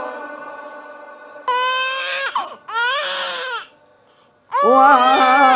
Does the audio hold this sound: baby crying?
yes